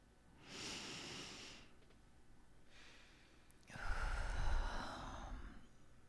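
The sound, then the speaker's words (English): A deep human breath, taken slowly: two soft, airy inhales, then a longer, louder whooshing exhale, with no talking. “let's all just take a very deep breath.”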